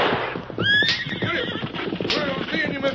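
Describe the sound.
Horses neigh and hooves clip-clop as a wagon sets off. A high whinny rises early, and hoofbeats and voices continue underneath.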